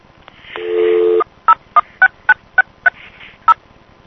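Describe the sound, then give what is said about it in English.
Touch-tone dialing on a privately owned coin payphone: a steady tone, then seven short, evenly spaced beeps at varying pitches with brief gaps between them. “This is me dialing 1069630 and off-diverting to TellMe.”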